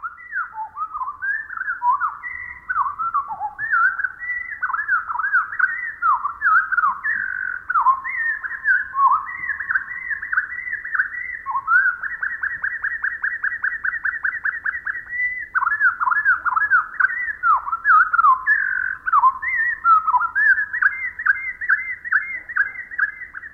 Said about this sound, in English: naturalist Rosemary Jealous writes, even the most extensive bird song seems so brief to us. Let's listen again, but this time with the song slowed down to 1/4 speed.